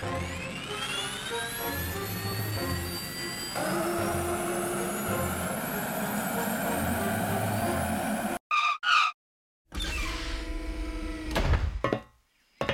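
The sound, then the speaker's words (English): Jet engine roar of a helicarrier aircraft landing: a loud, sustained roar with a high whine climbing in pitch, then an abrupt cutoff followed by a few short mechanical bursts and clunks. “Spin down! Deploy the landing pods! What? Let's land this thing. All right, helicarrier landing.”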